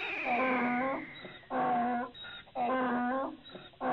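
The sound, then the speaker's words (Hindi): A donkey brays in three loud, harmonic honking bursts with breathy, rasping intakes between them. The sound is muffled and band-limited. “देखिए गधा भी बोल रहा है सही बात है”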